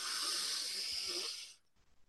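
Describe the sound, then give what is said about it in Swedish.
A deep breath is drawn from low in the body during a voice coaching exercise: one long, airy hiss lasting about a second and a half, then cutting off into near quiet. “vi tar ett djupt andetag mm. nerifrån”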